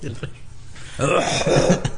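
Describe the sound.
A person coughing in a couple of short, rough bursts at the start, followed by someone talking.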